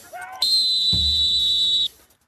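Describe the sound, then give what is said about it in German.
A referee-style whistle sounds at a sports training session as a single long, steady, shrill blast held for about a second and a half, with a brief voice just before it and low rumbling noise beneath its later part. “Brauche ich nicht, ist doch gepfiffen.”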